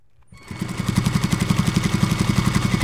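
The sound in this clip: Industrial sewing machines run at Norma's Apparel, a clothing workshop in National City, starting after a brief quiet moment with a rapid, steady mechanical clatter of stitching pulses that stays loud and even.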